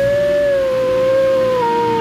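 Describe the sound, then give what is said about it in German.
A wolf howls in one long, steady, tonal cry that holds its pitch, then drifts slightly lower toward the end, alone. “Dort! Seht nur! Dort ist der Wolf!”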